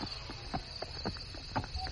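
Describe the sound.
Faint, steady clip-clop of a hard-ridden horse in a dark wood, many evenly spaced hoofbeats over a soft hiss.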